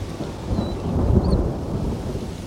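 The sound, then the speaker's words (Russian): Low rolling thunder rumbles beneath steady rain under gathering storm clouds, swelling slightly mid-way before easing back to a continuous murmur. “Не волнуйся, это просто гром. Ничего страшного.”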